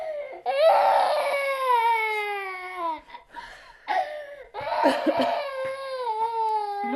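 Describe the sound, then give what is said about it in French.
A woman crying, with long, drawn-out high wails and sobs that break off and resume, loud and alone, with a few sniffing breaths between cries. “Vous voyez, elle n'arrête pas de pleurer.”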